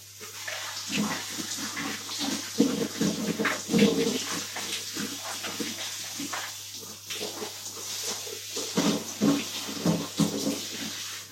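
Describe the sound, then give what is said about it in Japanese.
Warm shower water pours and splashes over a person's body in uneven, sloshing bursts that rise and fall in loudness over a steady hiss of running water. “お、暖かくなったぞ。体にかけていきます。”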